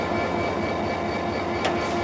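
A train locomotive stands ready to depart on a line toward Khombol, giving off a steady low rumble and engine hum, with one brief sharp hiss near the end.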